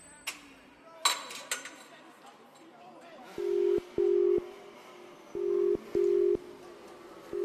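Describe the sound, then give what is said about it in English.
Coins clink into a payphone in a few sharp metallic hits, followed after a pause by four steady dialing tones in two pairs, each with a click. “Better put my damn change in this fucking payphone. What the fuck's this dude's number?”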